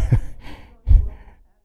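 A person yawns: a drawn-out, breathy exhale in two swelling waves, the second stronger, then fading into silence, with no other sounds.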